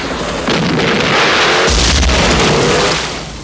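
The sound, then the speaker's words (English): A flare fired during a combat scene with a vehicle crossing a bridge: a loud, sustained rushing roar with a deep thump partway through, fading toward the end. “It's just a flare.”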